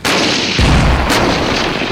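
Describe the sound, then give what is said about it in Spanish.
Artillery fire from an army unit shooting reconnaissance rounds at a target: a loud, deep boom breaks out over steady background noise, followed by a sharp crack and a sustained low rumble. “Cuarto ejército Panzer, efectúen disparos de reconocimiento sobre el objetivo Mama Charlie.”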